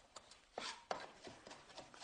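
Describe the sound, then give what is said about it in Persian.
A cleaver chops walnuts in a soft, irregular series of knocks. Several sharper strikes stand out among lighter taps, and the whole sequence stays faint. “کاملا گردوامون رو ساتوری میکنیم، چپ به راست، چپ به راست، پایین بالا.”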